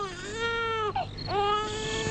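A hungry baby cries in a continuous, high wail that briefly breaks in the middle and then resumes, with the pitch dipping and rising again.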